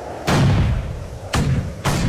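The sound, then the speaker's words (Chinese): Anti-aircraft artillery fire from the ground at a departing transport plane: three heavy booms, the first two widely spaced and the last following soon after, each leaving a loud low rumble. “突然间，地面上响起了高射炮声，密集的火力开始向渐渐远去的运输机射击。”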